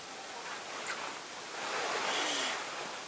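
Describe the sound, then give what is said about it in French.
Water poured into wine in a chalice during Mass: a soft, continuous trickling hiss that stays faint and swells slightly in the second half, with no speech. “Comme cette eau se mêle au vin pour le sacrement de l'Alliance,”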